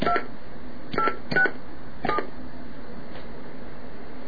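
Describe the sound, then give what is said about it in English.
Telephone keypad tones as a number is redialed: a few short, steady beeps at uneven intervals, the last one faint, over a constant low background hum. “Let's see what happens when we dial that again.”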